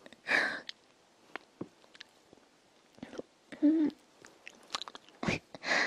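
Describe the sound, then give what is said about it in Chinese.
Close-up biting and chewing mouth sounds in a playful mock-biting scene, with scattered soft wet clicks and crunchy snaps, quiet between bursts and louder near the start and end. “我要咬你。好吃。”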